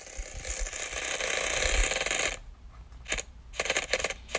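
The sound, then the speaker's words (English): A prize wheel whirs through a steady spin and then slows to a few separate ticking clicks as it comes to rest. “For I believe it's our sixth time now, we are going to give the wheel a spin and hopefully it will be a little kinder.”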